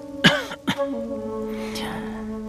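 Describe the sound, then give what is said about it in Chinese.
A light cough, two short soft bursts close together, heard over a steady sustained background tone with no talk. “谢成则轻轻咳嗽一声，略微缓解了一下空气中紧张的气氛”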